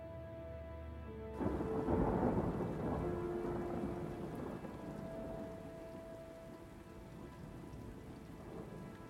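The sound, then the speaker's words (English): Thunder rumbles through a dark storm over heavy, steady rain. The deep rolling roar starts abruptly, then swells and slowly fades as the rain keeps hissing beneath it. “Through the fog up ahead, a dark storm starts to rumble in the sky.”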